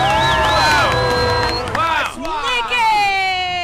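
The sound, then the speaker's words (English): A studio audience cheers and whoops loudly for a guest arriving on a show, with high shouted voices rising and falling over a constant roar. “Everyone, let's give it up for Nick, because baby, we're having a good time.”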